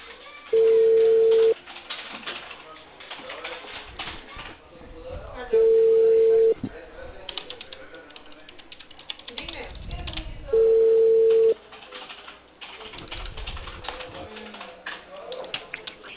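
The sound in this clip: A telephone call rings with three evenly spaced ringback tones about five seconds apart. The low, steady beeps sound over a narrow phone line, with voices talking between them.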